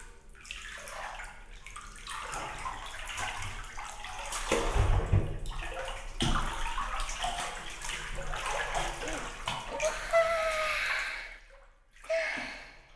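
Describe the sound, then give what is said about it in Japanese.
Bath water sloshes and spills over the tub as two people climb into a hot bath: continuous swishing and splashing with several louder surges, a brief lull near the end, then one final splash. “いいお湯ですね。二人で入るとお湯がいっぱい溢れてちょっともったいないですが。”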